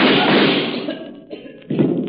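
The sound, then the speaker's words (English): A heavy steel vault door closing: a long, loud grinding rush that fades, then a few dull, heavy thuds near the end. “Try to get out before I close this steel door.”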